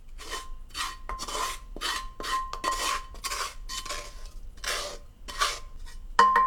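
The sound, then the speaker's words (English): Tadka being added into dal in a pot gives a rough, hissing rasp that comes in repeated surges, with scraping against the pot throughout and a sharper clatter at the very end. “I'm gonna add the tadka into the dal.”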